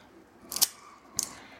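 A cigar is cut in half with two crisp, bright snips, the first slightly longer, on an otherwise quiet background.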